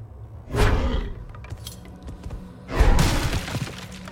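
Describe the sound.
Crashing and shattering of wooden crates being smashed in a video game: two loud, rough bursts of breaking noise, each followed by a short rattling tail of debris.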